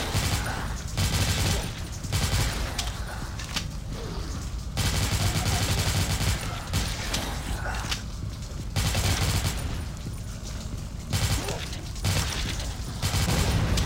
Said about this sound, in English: Alright, zombies are coming and I'm shooting them in the face.